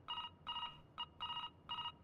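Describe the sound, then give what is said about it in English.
A telephone rings in five short, evenly spaced electronic bursts, each a bright, buzzy warble at steady pitch, heard alone with no voices. “Look, can't you just silence this phone, huh?”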